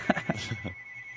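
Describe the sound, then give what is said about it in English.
A telephone rings briefly under a man's speech, a thin steady electronic tone running beneath the voice. “Pardon that phone ring there.”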